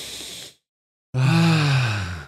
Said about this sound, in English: So let's take a breath to clear our mind.